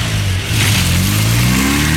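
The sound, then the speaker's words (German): A car engine revs hard as it accelerates, a loud, steady, mid-pitched roar that runs unbroken for the whole clip. “Jetzt einsteigen und Gas geben.”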